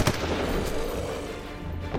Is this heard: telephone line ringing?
no